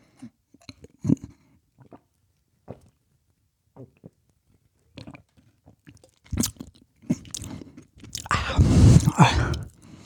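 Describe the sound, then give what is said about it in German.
Someone takes a big gulp of a drink after sliding a lid between their fingers. Sparse, soft mouth clicks and taps come first, then a louder, wet, gurgling swallowing burst near the end. “Ja, ganz langsam lasse ich den Deckel zwischen meinen Fingern gleiten. Und jetzt nehme ich einen großen Schluck.”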